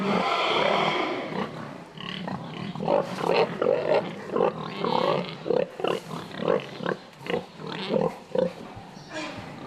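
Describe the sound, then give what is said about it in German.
A boar and sow grunt during natural mating on an organic farm. A dense, murky stretch of sound gives way to a steady run of many short, rhythmic, low grunts. “Das war jetzt eine erfolgreiche Besamung mit dem Eber, ja, im Natursprung.”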